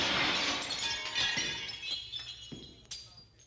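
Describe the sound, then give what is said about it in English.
Window glass breaking: a sharp shattering crash, then a few scattered clinks of falling shards that fade away. “Here, Vern, let me crack this window for you.”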